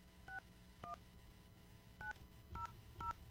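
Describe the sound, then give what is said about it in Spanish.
Touch-tone beeps as a telephone number is dialed: five short dual-tone keypresses at irregular intervals, fairly faint, with no voices between them. “Que nos contesten la llamada. Estamos marcando.”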